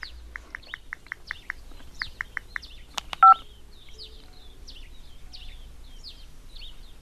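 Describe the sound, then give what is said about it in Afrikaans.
Touch-tone beeps as a telephone number is dialled: a rapid run of many short, even electronic tones, then a brief louder click, while birds chirp and twitter faintly throughout. “Ek skakel vir Trevor.”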